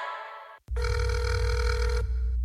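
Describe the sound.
A telephone rings once: a steady, loud electronic burst lasting a little over a second over a low hum, with a shorter different tone just before it.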